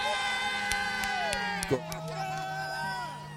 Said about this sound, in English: That is the sound of pure jubilation.